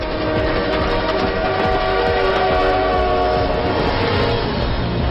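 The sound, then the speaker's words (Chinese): A train arrives at Moscow's Yaroslavsky station, a special train carrying a state delegation. A loud, steady rumble of rolling wagons runs throughout, with sustained tonal hums layered on top. “十二月十六日中午十二点，毛主席专列抵达莫斯科亚罗斯拉夫车站，开始了友好国事访问。”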